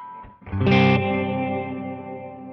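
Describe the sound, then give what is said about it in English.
An effects pedal set to plain reverb with the delay mix turned off: one struck chord swells to a bright peak, then rings on in a long, smooth sustained tail that fades slowly. “if I have it off, it's just like reverb. So here's with just reverb,”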